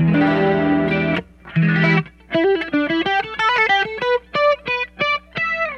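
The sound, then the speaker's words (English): Electric guitar played through a Boss chorus pedal into a tight crunch amp setting: two sustained, shimmering chords, then a quick run of picked single notes with a warbling, doubled tone. “It's got that, I think it's a rather characteristic sound, the Boss chorus. This is a Boss effect. This is a Boss pedal, so all the choruses are going to be Boss chorus.”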